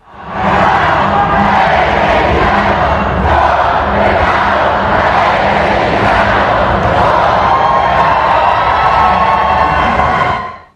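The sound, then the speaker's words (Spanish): Loud ovation and cheering from a Mexican audience greeting Grogu's appearance at a Mandalorian and Grogu event: a dense, sustained roar of many voices that holds steady from start to finish. “El momento más viral llegó cuando el mismísimo Grogu hizo acto de presencia, y entre ovaciones se pudo sentir el cariño del público mexicano.”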